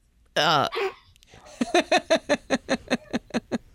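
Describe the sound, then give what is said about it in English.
Dogs barking at home, a brief higher cry followed by a long, evenly spaced run of many sharp yaps, fairly loud and steady in rhythm. “The joys of dogs barking.”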